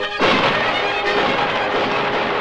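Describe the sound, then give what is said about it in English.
Rifle fire blasts wildly in all directions as a dense, loud barrage that erupts abruptly and continues without pause, its individual shots blurring into a continuous roar with no voices. “fires at them with a rifle. Everyone takes cover as she blasts away wildly in all directions.”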